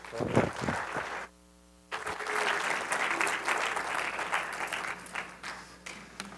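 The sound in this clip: Audience applause welcomes a speaker in a church: loud, dense clapping opens, drops to a brief lull, then swells into a long steady round.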